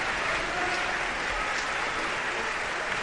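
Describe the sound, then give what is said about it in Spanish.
Sustained applause from an audience after an opera performance at Barcelona's Liceu, a steady, even wash of clapping that continues without a break. “Aquí están de nuevo, más aplausos,”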